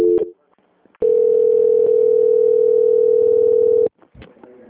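A steady telephone line tone during a call transfer to another department, held at one unchanging pitch for about three seconds, loud and unbroken, with brief faint clicks before and after it.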